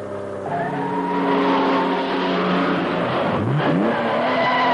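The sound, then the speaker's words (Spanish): A convertible car accelerates during a road chase. A loud, continuous engine drone with strong harmonic tones builds, then sweeps sharply upward in pitch near the end, with no voices. “El Phantom parte. Detrás aparece el descapotable de la hermosa mujer y tras ella viene Bon. Bon acelera para alcanzarla.”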